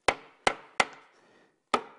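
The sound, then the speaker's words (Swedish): The last nail is driven in with four sharp, bright hammer blows. Each has a short ringing decay; the first three come in quick, even succession and the fourth follows after a longer pause. “vi får bara ta i den sista spiken här, tänkte jag. Eller hur? Så att det blir riktigt bra.”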